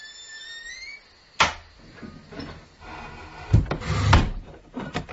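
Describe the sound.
A house door is closed carefully, starting with a sharp click. Wooden bumps and a low rumbling thud follow, then a few softer knocks.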